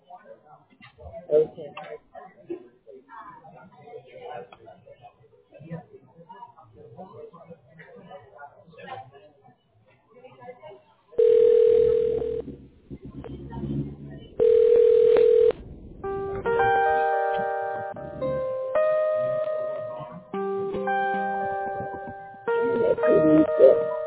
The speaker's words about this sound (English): You will hear me dialing and introducing the call.